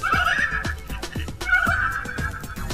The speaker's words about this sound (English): Ponies like to jump fences and whatnot. Oh, there you go, little pony. And you can, of course, yes and no if you disapprove. It's come with sounds, it's very fun.